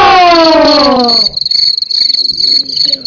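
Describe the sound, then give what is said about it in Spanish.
A cricket chirping during a sound-guessing game: a loud, steady, high-pitched trill with a fast pulsing texture, preceded by a brief falling tonal sound. “Un grillo, muy bien, un aplauso.”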